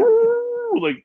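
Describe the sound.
A part-hound dog howls in one drawn-out, steady-pitched cry that holds for most of a second, then wavers and breaks into a short, rougher yelp before stopping.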